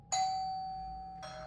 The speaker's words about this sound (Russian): Один из этих кошмарных снов прервал звонок в дверь.